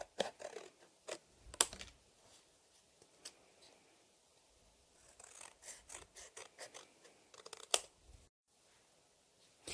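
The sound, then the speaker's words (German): Scissors cutting out a handmade Christmas card. Many short, crisp snips come in irregular bursts with brief pauses; they are soft and heard alone. “Und jetzt schneide ich das so aus, dass ich da einen Rand”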